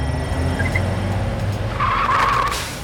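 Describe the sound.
A police car drives through city streets, its engine rumbling steadily and loudly, then its tires squeal in a bright skid during the second half before the sound eases off.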